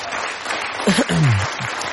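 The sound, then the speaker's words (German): Studio audience applause for the radio show's editorial staff: continuous clapping, with a brief voice rising over it midway before the applause carries on. “Einen großen Applaus für diese Menschen.”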